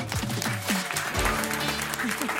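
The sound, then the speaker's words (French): An audience applauds a comedian at a live show: steady, dense clapping throughout, with voices audible underneath. “Applaudissements pour Laura Calu.”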